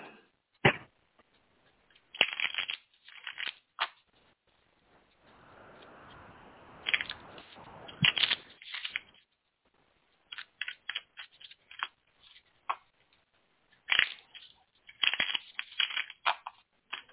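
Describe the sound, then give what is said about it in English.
Tarot cards being shuffled and cut, faint and close: scattered light flicks and taps of card edges, with a longer soft riffling stretch near the middle. “All right, let's cut the cards.”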